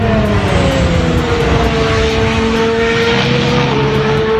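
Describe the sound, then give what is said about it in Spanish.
Whining drone of a new Honda racing engine in an Aston Martin Formula One car, loud and continuous, its tone dipping slightly early on, then holding steady, with no talk. “Pues suena bien. Aston Martin ha probado su nuevo motor”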